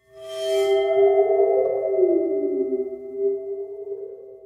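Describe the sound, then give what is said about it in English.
A waterphone, a metal instrument with water inside, sounds a sustained eerie metallic tone that wavers and bends in pitch, ringing alone for about four seconds. “It's a water phone. Water phone, yes. Which is like this metal thing that has some water at the bottom of it. That's why it kind of goes wobble, wobble, wobble.”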